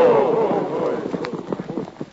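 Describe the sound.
Galloping horses ridden by a cavalry troop in pursuit produce a loud, busy run of rapid hoofbeats. Many thudding clip-clops roll together, partly under a voice at the start.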